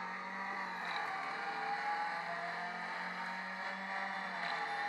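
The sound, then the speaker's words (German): Racing car engine sound from a racing video game played on an iPad, a steady, loud, continuous drone with layered tonal whine and no gaps. “Er gibt automatisch Gas und du bremst nur, ja? Wir haben die Cockpit-Perspektive, die beim iPad auch total Sinn macht.”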